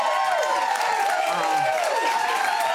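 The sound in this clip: Enthusiastic studio audience cheering and applauding in a back studio at ABC South Bank, a steady dense wash of claps with whoops rising and falling above it.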